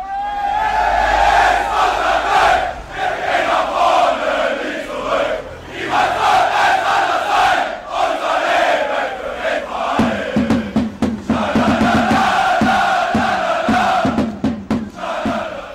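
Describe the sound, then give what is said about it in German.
Rot-Weiß Erfurt football supporters chant loudly at a home match in the Steigerwaldstadion, a dense wall of massed singing voices that holds steady throughout, with sharp rhythmic clapping joining in for the second half. “so klingt das, wenn die Fans, die Leute, die da den Fußballclub Rot-Weiß Erfurt eher zugeneigt sind, wenn die denn hier im Steigerwaldstadion sind”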